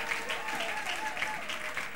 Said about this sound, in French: On acclame encore très fort le Seigneur notre Dieu.